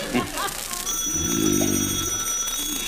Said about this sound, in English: answer the phone. The telephone, answer it.